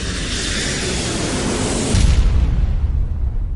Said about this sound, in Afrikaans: wat dit was nou maar vir jou weer 'n taamlike kadoef landing